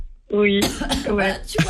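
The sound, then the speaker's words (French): A woman coughs and clears her throat after drinking a homemade elixir of honey, ginger, lemon and thyme, giving a few harsh, rasping bursts mixed with short voiced sounds. “Elle tousse depuis qu'elle boit l'élixir, hein, c'est bizarre.”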